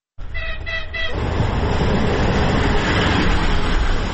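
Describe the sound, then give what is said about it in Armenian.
Electric commuter train from Dnipro pulling into a small-town railway station. A brief harmonic, horn-like tone opens, then a loud, steady rumbling roar of the train fills the rest. “Դնեպրից էլեկտրագնացք է ժամանում Մեժևայա քաղաքատիպ ավանի երկաթուղային կայարան։”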